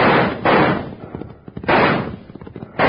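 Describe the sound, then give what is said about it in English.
Six-gun fire in a Western shootout: a few loud, broad blasts boom out in separate bursts, with sharper, quieter cracks scattered between them. “Doggone it, now they're shooting at us.”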